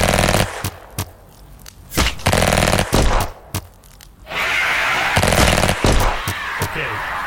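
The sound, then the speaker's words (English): Rapid gunfire crackles in irregular bursts of sharp shots, with a brief lull near the middle before a denser, louder stretch of firing; faint voices are also present. “Just start shooting.”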